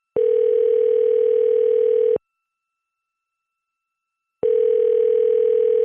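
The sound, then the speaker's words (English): Telephone ringing tone heard while calling someone back: a steady electronic tone sounds for about two seconds, stops for about two seconds, then starts again and runs to the end, with no voices. “Okay, I'm going to give her a call back.”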